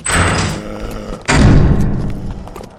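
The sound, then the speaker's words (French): A door slams shut at the foot of a clock tower during a hurried chase. Two heavy thuds sound: the first at the start, then a louder, boomier slam with a rumbling decay, with no talking. “une autre porte. On monte. Tu ouvres, je ferme, vite.”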